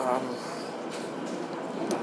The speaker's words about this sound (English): But we're on the Met line now and going home, and this is probably the latest I've ever been on the tube